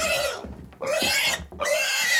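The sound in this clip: A pig grunts in three long, harsh, noisy bursts in a row, loud and rasping, each separated by a brief pause.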